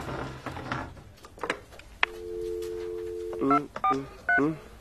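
A telephone is dialed: a steady tone holds for about a second, then a rapid series of keypad beeps follows, with some handling clatter before.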